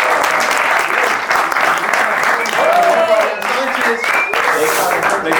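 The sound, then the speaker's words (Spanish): Applause for a guest at an Afro-Colombian percussion training workshop in Medellín: dense, steady clapping that fills the whole stretch with voices mixed in, staying loud throughout. “muchas gracias a Juan Rafael, un aplauso para él.”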